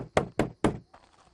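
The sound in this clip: Knocking on a door: three sharp, loud knocks in quick, even succession, followed by a few faint, softer taps.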